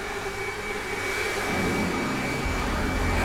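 A hair dryer blows onto ice to soften it for hammering, giving a steady, loud whooshing roar with a constant thin whine. A deeper rumble thickens the sound partway through.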